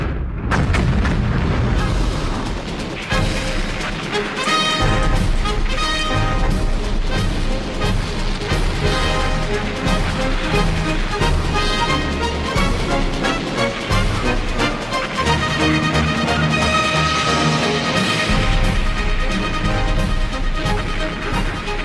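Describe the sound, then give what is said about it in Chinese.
An artillery barrage from four artillery regiments firing five tons of shells in a wartime battle, heard as a continuous, loud roll of booms and blasts with no pause throughout. “四个炮团五吨弹药，够他楚云飞喝一壶的。风水轮流转，也该他们尝尝挨炸的滋味了啊！”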